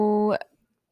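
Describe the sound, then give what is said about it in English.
Electronic tone from a toy sword being switched on: one sustained, buzzy, beeping tone lasting about a third of a second, then cutting off abruptly into near silence. “Well, please stop turning on your sword. It's very annoying. We can literally hear your sword from here.”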